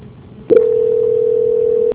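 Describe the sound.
A telephone line tone during a call transfer: one steady, mid-pitched electronic tone holds unbroken for about a second and a half, then cuts off. No voices.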